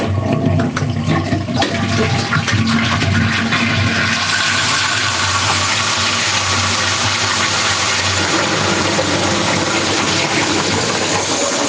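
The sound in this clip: A toilet flushing with a loud, continuous gushing rush of water that churns heavily at first, then settles into a steadier, hissing flow that runs for many seconds.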